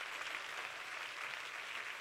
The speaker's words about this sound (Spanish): Y si ese es el aplauso a tu papá, vamos.